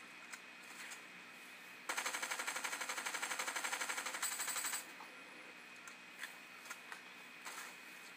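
Gunfire from shooting at enemies in the video game Fortnite, a faint, rapid, evenly spaced stream of automatic shots for about three seconds, followed by a few scattered single shots.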